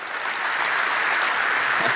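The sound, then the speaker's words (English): An audience at a startup pitch event breaks into applause, a dense, steady wash of many clapping hands that holds evenly and loudly throughout without pause. “Big round of applause.”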